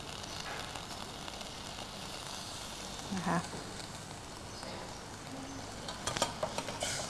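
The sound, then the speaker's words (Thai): Coconut cream is stir-fried until red oil separates, giving a quiet, steady hiss of sizzling with a few brief scraping stirs of the pan. “เราจะผัดกับหัวกะทิเพื่อให้น้ำมันมันออกมาเป็นสีแดงๆหน่อยนึงนะคะ”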